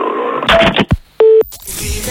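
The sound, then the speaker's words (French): Telephone keypad tone from a phone being dialed to call the police: a single steady beep of about a fifth of a second, preceded by rustling handling noise and a few dull knocks. “Eh ben moi j'appelle carrément la gendarmerie de police dans ce cas.”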